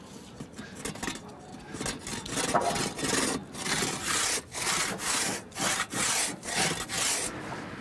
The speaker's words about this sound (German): Den letzten Stein in der Mauer müssen die beiden anpassen und zusägen.